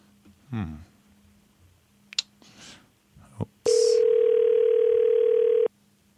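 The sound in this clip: Ringback tone on an outgoing telephone call: after a few faint clicks and brief rustles, one steady, mid-pitched tone sounds loudly for about two seconds and then stops.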